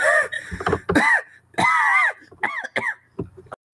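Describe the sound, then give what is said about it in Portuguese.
A voice imitates a dragon in a tabletop role-playing game: several strained, groaning and wailing vocal bursts that rise and fall in pitch, separated by short gaps. “Isso foi o dragão, né?”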